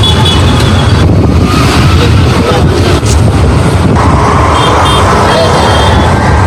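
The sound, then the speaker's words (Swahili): Dense vehicle traffic rumbles at the Magufuli regional bus terminal, where passengers board buses: a loud, unbroken wash of engine noise and road roar with no clear pauses. “Msikilizaji, upande wangu wa kushoto ni kituo cha mabasi ya Mikoani, kituo cha Magufuli.”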